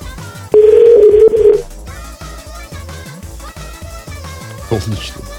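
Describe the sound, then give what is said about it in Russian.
A telephone call being placed: one loud, steady ringing tone lasts about a second, then gives way to music and a voice talking. “Я зачем-то звоню.”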